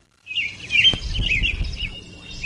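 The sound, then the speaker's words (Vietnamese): Bright bird song from a shrike, a clear run of rapid chirps and twittering trills in a lively rhythm, with a soft low rumble beneath. “Mèo gấu chưa kịp nói gì đã nghe một tràng líu lo thình lình cất lên ngay trước mặt. Tiếng hót trong trẻo, nhịp nhàng và vui tai hòa vào những tiếng chim họa mi khác”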